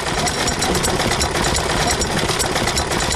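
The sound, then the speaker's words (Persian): A sewing machine stitches leather in a tailoring workshop, giving a loud, steady, rapid mechanical rattle and whir that runs without a break for the whole stretch, with no talk over it. “چرمدوزی میکنم، خیاطی میکنم در اینجا در این باغ زرانه.”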